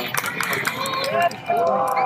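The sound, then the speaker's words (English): Crowd cheering during a solar eclipse, a steady wash of whoops and high shouts that holds throughout, dipping briefly near the middle before swelling back. “Oh, people are cheering right now.”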